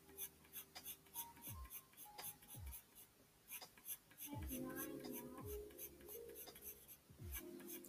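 A pencil scratches across paper in short, repeated strokes while someone draws a person. Quiet, light scraping sounds arrive in uneven bursts, with a denser run of strokes midway.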